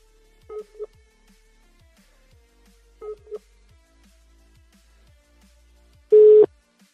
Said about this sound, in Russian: И слилась. Еще раз набираю.